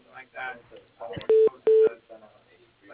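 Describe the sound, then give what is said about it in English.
Telephone keypad tones sound as a call is patched through to voicemail: two short, steady, equal beeps a moment apart, with faint voices on the line around them. “could you patch me through to his voicemail, please? Sure. Just a moment.”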